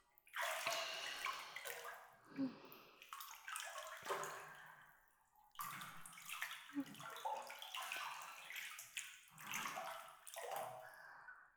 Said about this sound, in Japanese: おとなしくお風呂に入れて偉いな。